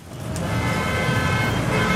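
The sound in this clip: Car horns honking in a traffic jam, heard as sustained tonal blasts over a low, constant rumble of traffic.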